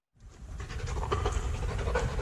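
Rapid, steady panting from a service dog at the German armed forces' dog school in Ulmen near Koblenz, where dogs train to sniff out explosives and drugs. The loud, continuous breathing starts abruptly after a brief silence and keeps a quick, even rhythm throughout.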